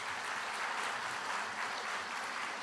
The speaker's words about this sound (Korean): 여러분 다시 한번 박수 부탁드립니다.